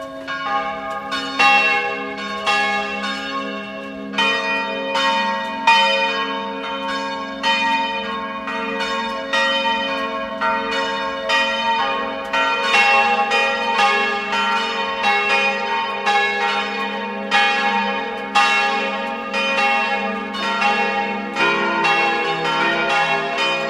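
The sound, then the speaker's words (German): Parish church bells of Maria Lichtmess in Bach, in the upper Lech valley, ring at noon: many overlapping strikes in a steady, rhythmic, continuous peal, loud and alone. “Es ist 12 Uhr. Sie hören die Glocken der Pfarrkirche zu Maria Lichtmess in Bach.”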